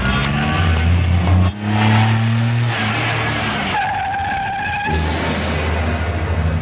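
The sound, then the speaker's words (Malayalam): A car engine roars steadily with loud tyre skidding and squeal, the engine note shifting pitch partway through before settling into a continuous drone. “ഇതേതാ ഈ വണ്ടി? ഇവനെന്തിനാ ഇതേ കയറി പോയത്?”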